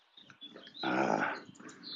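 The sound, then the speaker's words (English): A dog being walked across a street outdoors gives a brief, faint growling whine that swells and fades within about a second. “Across the street, there's some folks walking a dog.”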